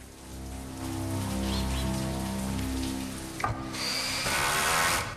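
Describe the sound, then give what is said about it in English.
Heavy rain pounds on a terrace outside French windows as a steady, dense hiss throughout, with a low tonal drone beneath and a sharp knock partway through. “Rain is pounding on the terrace outside the French windows.”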